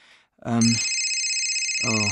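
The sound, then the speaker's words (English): A mobile phone ringtone goes off abruptly as a bright electronic melody of high, sustained tones that continues to the end, with a voice heard briefly as it starts and again near the close. “That's my phone.”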